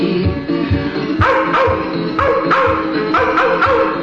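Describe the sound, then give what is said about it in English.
Dogs barking and yelping, a fast string of many loud, harmonic barks and yips with little pause between them. “Oh, their savage howls, a devil's blood would freeze. The wild dogs of Kentucky, the wild dogs of Kentucky.”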